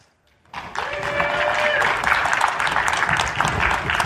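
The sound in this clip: Applause breaks out after a brief silence as an audience welcomes a historian of technology to the stage at a talk, then holds as dense, even clapping to the end.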